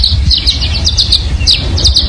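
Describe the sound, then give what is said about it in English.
Violet-green swallows chitter in quick, high-pitched twittering clusters as they fly around a dead tree in Southern California, the bright calls repeating in bursts over a steady low rumble. “what you're hearing here are violet green swallows”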